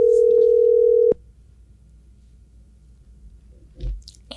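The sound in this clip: A telephone ringback tone while calling someone, a single steady mid-pitched tone lasting about a second that cuts off abruptly into near silence.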